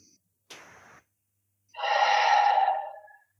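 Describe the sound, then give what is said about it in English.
A short, faint intake of breath is followed by a loud, long, forceful exhale through the mouth during a guided relaxation exercise. The exhale swells and then tapers off. No talking is heard. “take a nice deep breath in, hold at the top. And exhale forcefully through the mouth, down through the body, and down through the feet.”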